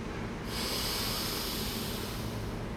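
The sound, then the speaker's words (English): A deep, powerful inhale through the nose during a guided breathing and relaxation exercise; a steady breathy rush begins about half a second in and sustains for over two seconds over a constant low background hum. “Whenever you need to, take a powerful inhale.”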